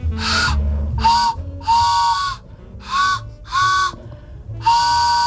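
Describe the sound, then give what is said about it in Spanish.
A homemade whistle imitates an old steam train with six loud, breathy blasts, each a chord of steady hooting tones, sounded in short bursts with brief gaps between them. “¿Pero eso qué hace? ¿Cómo suena? Es un tren.”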